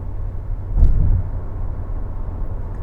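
A car driving on a small highway gives a steady, low road and engine rumble from start to finish. The drone swells briefly early on, and no one speaks over it.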